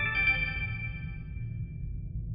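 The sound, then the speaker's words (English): A spaceship system's boot-up chime rings out: faint, bright layered tones that sound together at the start and slowly fade away over a low, steady hum. “as the power of the system fully boots up, and you can hear the Miranda chime,”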